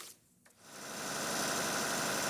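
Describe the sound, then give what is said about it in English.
A generator runs during a power outage in Khartoum, Sudan. After a brief quiet moment, its hissing mechanical drone swells up and then holds steady and loud. “Ahmed Yaqub checks on his generator several times a day to make sure it's running properly.”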